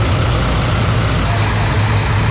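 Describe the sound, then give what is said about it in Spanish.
Cargo truck engines idling around 4 a.m. before dawn on a road where vehicles are stranded near the Pichincha–Cotopaxi border: a steady, loud, low rumble that holds without pause. “Cerca de las 4 de la mañana, los motores empiezan a encenderse.”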